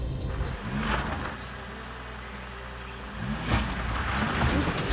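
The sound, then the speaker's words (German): Engine of an old vintage diesel car running on a dirt farm track, a steady low rumble that swells louder and rougher toward the end. “Ja, das ist ein richtiger Oldtimer.”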